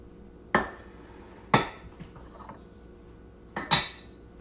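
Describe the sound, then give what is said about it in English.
Salt and flour containers knock and clink as they are put away in a kitchen while baking. A few sharp, separate clunks ring out against a quiet background, and the last two fall close together. “So I'm gonna put away my salt because it's big and it's taking up a lot of influence. I'm also gonna put away my flour because that's taking up room.”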